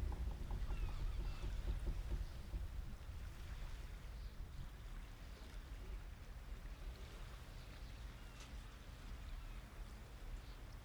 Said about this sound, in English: As you sail towards Pelea Kameni, the traditional Greek ship becomes more than just a vessel.